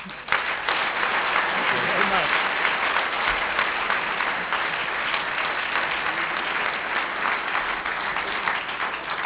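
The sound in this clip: Sustained audience applause at the National Press Club welcomes a House committee chairman to the podium, a dense, even wash of clapping that holds steady at a fairly loud level for several seconds.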